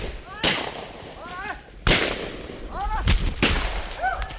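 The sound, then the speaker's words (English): Gunfire from rubber tappers' weapons, shot while chasing a scout near illegal loggers' camps: four sharp, loud cracks at uneven intervals over a steady background hiss. “charge after the biker, firing their weapons.”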